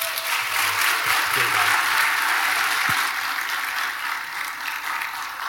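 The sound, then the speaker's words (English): Loud, sustained applause from a church audience welcoming guest pastor Keith Baldridge: a dense, continuous roar of clapping that holds steady and eases slightly toward the end. “Would you guys please give Pastor Keith a very big Venue welcome?”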